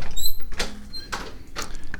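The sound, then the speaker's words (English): A basement door being opened: a few short creaks and knocks in a row against a steady low background hum. “and walk out of the studio, open the basement door, and head down into the basement.”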